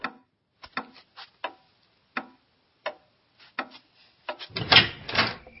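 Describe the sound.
A clock ticking in the middle of the night: a series of sharp, dry clicks at uneven intervals, then a louder, denser rustling burst of noise at the end.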